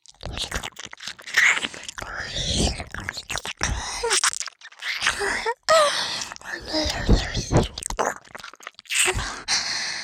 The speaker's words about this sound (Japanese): なんかお耳舐めるのってなんかちょっと楽しいかも。